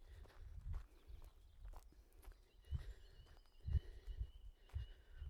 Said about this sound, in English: Back we go again, brisk walk.